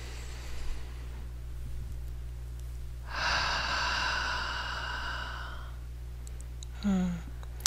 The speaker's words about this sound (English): So close our eyes, please, and let's take some nice deep breaths here.